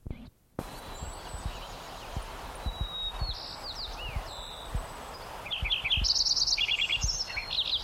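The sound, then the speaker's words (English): Lincoln's sparrow song: thin, high chirps and short sweeping notes give way to denser, buzzy, bubbling trills that grow louder in the second half, with faint low thumps underneath. “Lincoln Sparrow number 3.”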